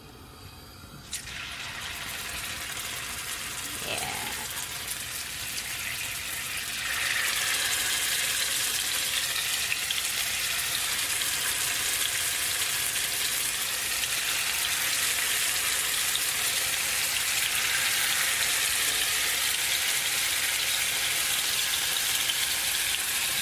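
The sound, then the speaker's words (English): Barley tofu deep-fries in hot oil, giving a dense, steady crackling sizzle that grows louder after the first few seconds and then holds at an even level with no talk. “All right, my oil's nice and hot, so let me start dropping these in.”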